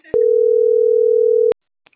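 A single steady, mid-pitched telephone tone after a dropped call, holding for about a second and a half before cutting off, followed by a few faint clicks.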